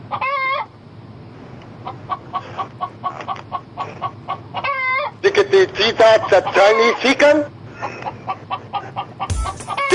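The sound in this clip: A person imitates a chicken with a mix of voiced clucks and drawn-out crowing calls. There are short crow-like cries at the start and again near the middle, a louder run of squawking vocal bursts after that, and an abrupt noisy burst at the end.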